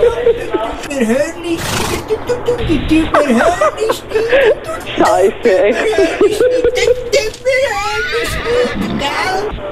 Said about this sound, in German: Nein, da schreit also der Gaul.